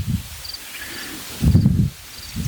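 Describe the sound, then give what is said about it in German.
Wind buffets the microphone outdoors beside a hedge, with three low rumbling gusts separated by quieter stretches. Faint, thin high chirps sound in between. “ihr müsst leider etwas Windgeräusche ertragen.”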